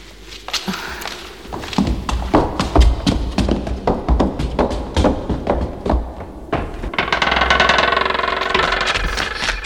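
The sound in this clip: A car arriving, its engine rumbling and growing louder toward the end into a steady idle, after a run of many sharp taps and footstep-like knocks.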